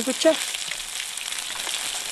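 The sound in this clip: Food sizzling in two frying pans at a mobile outdoor kitchen by a lake in New Zealand, cooking foraged ingredients. A steady, dense crackling hiss runs unbroken through the whole clip.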